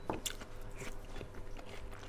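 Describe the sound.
Crisp biting and chewing of a slightly charred, soy-based twice-cooked pork stir-fry with sweet bean miso sauce. A couple of sharp crunches come early, then steady, moderate chewing continues with no talk.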